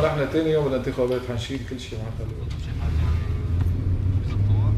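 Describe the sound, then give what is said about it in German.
Car driving, with a low, steady engine rumble and road drone. A voice talks over it early on, then the rumble swells a little and continues alone. “Zurück im Auto auf der Fahrt zum Abgeordneten Hashim Alameddin”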